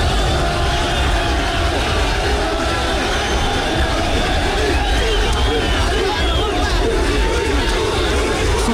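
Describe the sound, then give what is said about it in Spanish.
Crowd noise fills a London street as football fans protest after Morocco's defeat and elimination, a steady, dense babble of many voices with no distinct separate events. “Este era el sonido de Londres después de la derrota de Marruecos.”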